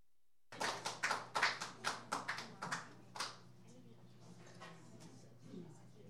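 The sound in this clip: Applause welcoming a performer at an open mic: a run of many sharp, separate claps that starts abruptly, peaks early and thins out after about three seconds, leaving near silence.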